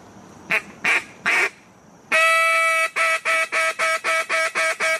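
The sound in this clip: Competition-style hunting call blown loudly: three short quacks, a pause, one long sustained blast, then a run of rapid, evenly spaced quacking pulses.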